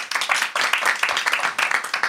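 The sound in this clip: Audience applause at a live comedy show: a dense, uneven patter of many hands clapping, fairly loud and continuing throughout with small surges.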